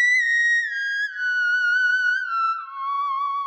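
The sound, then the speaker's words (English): Theremin playing a single smooth, sustained, slightly wavering electronic tone that glides slowly downward in pitch, heard alone. “So this is the sound of the theremin.”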